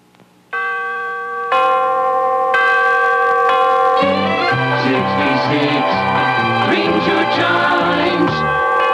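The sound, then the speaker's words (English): The three-note NBC radio chimes ring out as bright, bell-like tones, each struck about a second apart and left to sustain. Busier music then joins underneath and carries on to the end. “WNBC, as traditional as the three most recognizable notes in American radio, the NBC chimes”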